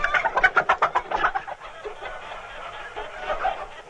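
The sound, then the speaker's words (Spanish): A hen that has just laid an egg clucks in quick, rhythmic bursts for about a second, then trails into softer, noisier clucking. “O sea que aquí lo que pasa es que esta gallina ha puesto.”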